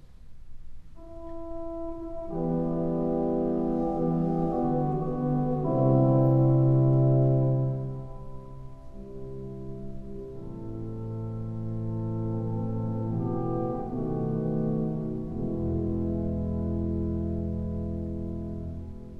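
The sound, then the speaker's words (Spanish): The French horn stop of a Skinner pipe organ plays a slow, mellow melody of sustained, rounded tones over soft held chords, swelling and fading gently without a break. “el registro de corno francés, que no existía ni existe aún, creo, en órganos franceses. Ese registro suena así.”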